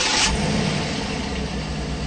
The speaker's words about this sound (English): The small gas engine gets help from an electric motor, making for a much different kind of startup.